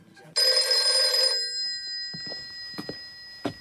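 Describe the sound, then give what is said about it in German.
At two in the morning a telephone bell rings once in a bright, metallic burst of about one second. The ring stops abruptly, and only quiet scattered sounds follow. “Es war 2 Uhr nachts und wieder ging das Telefon.”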